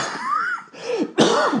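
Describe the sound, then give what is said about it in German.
Coughing from a person, three harsh bursts in a row with a short gap after the first, fairly loud and heard alone without talk. “Ich wollte den Husten noch zurückhalten.”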